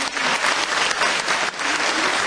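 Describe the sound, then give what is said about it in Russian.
Audience applause for a municipal chamber orchestra at a concert: dense, continuous clapping from many hands, loud and steady throughout with slight swells. “я думаю, что наши аплодисменты.”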